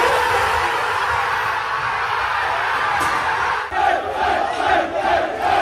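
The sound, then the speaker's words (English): Arsenal's squad cheering on learning they are Premier League champions: loud, sustained group shouting and roaring from many voices, with the cheers swelling into bursts toward the end. “This is the sound of the Arsenal squad finding out they're Premier League champions.”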